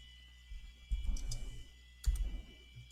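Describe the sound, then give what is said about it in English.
Quiet typing on a computer keyboard comes as two short bursts of rapid, soft key clicks separated by a brief pause, with a lone faint tap at the end. “I hear some typing.”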